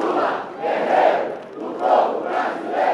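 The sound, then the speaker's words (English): A large crowd chants and cheers for former president Lula at a Workers' Party rally in Brazil's capital. The loud, massed voices swell in a steady rhythm, rising about three times. “It was a gathering of the party he co-founded, the leftist Partido dos Trabalhadores, or Workers' Party. The charismatic former president was given a huge welcome.”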